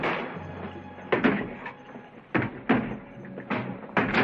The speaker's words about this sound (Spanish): Los forajidos siguen golpeando la puerta.